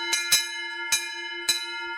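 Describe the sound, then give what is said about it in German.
A Milan-type cowbell with a rounder shape and thinner body rings out with four metallic strikes, its bright, steady tone sustaining between hits. “das ist also Mailänder-Glocken, die ist etwas runder, ist auch der Korpus nicht so stark. Und wenn man die ableitet,”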